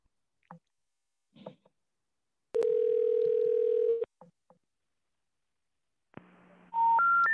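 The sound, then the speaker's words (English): Telephone line tones while a number is dialed with a star code: a long, steady, loud tone, then a low hum joined by three tones that step up in pitch, with a few faint clicks earlier. “Asterisk 6-7 and then the number. Let's try that. See if it's any different.”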